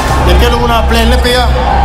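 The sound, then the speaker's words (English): Boxing arena crowd chanting for Canelo and El Perro, with two rival sides trying to drown each other out in a loud, continuous roar of massed voices throughout. “The crowd says it all. The dueling chants of Canelo and El Perro, the two sides trying to drown each other out.”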